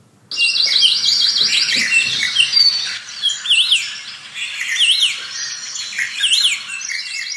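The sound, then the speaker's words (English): Birdsong in a Hawaii forest: many birds chirping and trilling at once in a dense, continuous chorus of high, rapid warbling calls that begins abruptly after a brief moment of quiet. “This is what a Hawaii forest sounds like today.”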